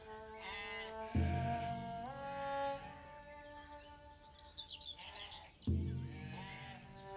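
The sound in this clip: Sheep bleat a few times, quiet wavering calls with a sharp onset, heard alone without talk.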